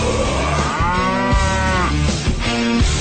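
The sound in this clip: Cow mooing, two drawn-out lowing calls with rich harmonic tone, the first longer than the second, over a steady dense background noise.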